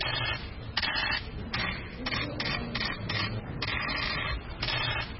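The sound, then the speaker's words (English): Press photographers' camera shutters click rapidly outside Nyarugenge prison as they photograph Victoire Ingabire, many bright overlapping bursts of clicking firing in quick runs throughout. “Ibyo mwumva byumvikana si urufaya rw'amasasu, ahubwo ni imirabyo ya za kamera z'abanyamakuru zicicikanira kuri gereza ya Nyarugenge ubwo bafotoraga Madame Victoire Ingabire”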